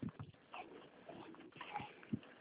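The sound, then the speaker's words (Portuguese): Street dogs barking outdoors, a few sharp barks spaced apart over a low, steady background. “Quanto cachorro? É, tô na rua aqui, tá? Ah, os cachorros de rua?”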